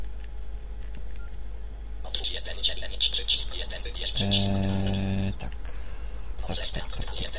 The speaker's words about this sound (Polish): No to teraz proszę posłuchać, co twórcy tegoż oprogramowania wymyślili. I restartuję telefon.